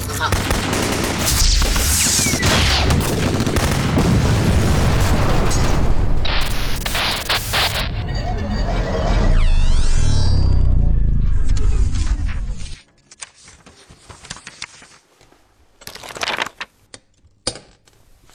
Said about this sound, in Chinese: 快开枪！